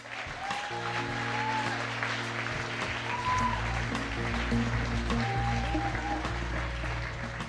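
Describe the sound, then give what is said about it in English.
Audience applause welcomes three guests onto the stage, a steady, even patter of clapping that runs throughout over a sustained low musical backing. “So can we put our hands together as we welcome Matt, John and Rick.”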